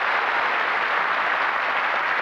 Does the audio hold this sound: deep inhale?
no